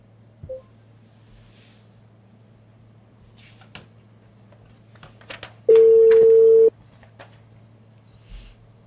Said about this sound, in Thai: อ่ะเดี๋ยวโทรเลยนะครับปึ๊บ